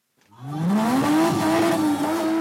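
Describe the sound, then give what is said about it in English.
Loud, continuous tire screech and engine roar from a souped-up BMW spinning on tarmac in South African car spinning, a high-risk motorsport. The tone rises sharply in the first second, then holds steady and strong to the end. “Tires screech and smoke rises from the tarmac as a souped-up BMW careens wildly around a makeshift course.”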